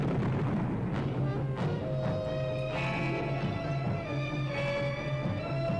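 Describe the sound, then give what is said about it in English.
Opening theme music from a 1967 animated cartoon, a loud, dense mix of sustained tones and repeated booming, blast-like effects, continuous throughout with no talking. “Let me see if I can play the Herculoids opening theme and see if I'm thinking right. Herculoids intro. Here we go. 1967.”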